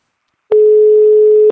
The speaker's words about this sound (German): Und zwar haben wir da die Nummer. So, und jetzt wählt es schon.